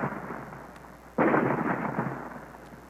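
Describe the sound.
Radio drama effect of weapon fire blasting and splitting rock: a single sudden roaring blast cuts in over a low background hiss, then a dense, sustained rumble carries on after it.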